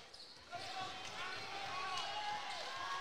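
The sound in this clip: Basketball dribbled during a high school state semifinal game, soft thumps faintly heard beneath a commentator's steady talk.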